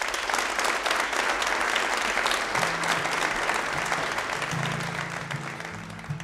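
Audience applause welcoming a guitarist to the Red Barn stage: dense, steady clapping from a crowd continues for several seconds, easing slightly toward the end as a low sustained tone comes in underneath.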